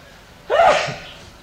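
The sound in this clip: One short, forceful sneeze bursts out after a moment of quiet, then trails off into a soft breathy exhale.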